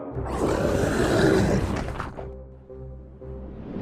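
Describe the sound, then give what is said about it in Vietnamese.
A loud, deep roar reverberates across an open space as a broad, rumbling blast for about two seconds, then gives way to a lower, steady hum. “Ngay theo đó, một tiếng gầm lên vang dội cả không gian.”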